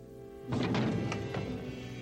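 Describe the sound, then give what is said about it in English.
A hand bangs against a small circular clock, giving a few dull, muffled thumps in quick succession over a steady low hum. “He bangs his other hand against a small circular clock.”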